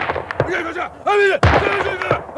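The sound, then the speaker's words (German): A single loud, sharp rifle shot from Old Shatterhand's Bärentöter rings out in a Winnetou radio play, a sudden blast midway between voices shouting before and after it. “Ich habe mich nur überzeugt, ob mein Bärentöter nach dem langen Liegen noch in Ordnung ist. Ich lade jetzt neu.”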